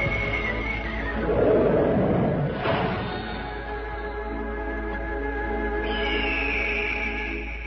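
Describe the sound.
Horses neighing as riders gallop out onto the grassland, with a whinny rising out of the mix early on, then giving way to a steady low hum and sustained tones, no talk.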